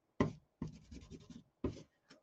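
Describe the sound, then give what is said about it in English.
Scratchy strokes of a drawing tool pressed hard onto paper on a drawing board, heard as four quiet bursts: a short stroke, a long rasping one, another short stroke, then a brief faint scrape. “And by the way, I'm pressing really hard, like drawing board shaking hard, because you have to make it physical.”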